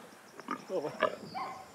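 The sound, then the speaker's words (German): A sow with her piglet gives a few short grunting, squealing calls in uneven bursts, at moderate loudness. “Mama, pass auf, das ist ja gar nicht dein Ferkel, das ist alles gut.”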